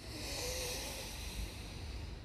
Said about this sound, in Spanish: Última, inhala.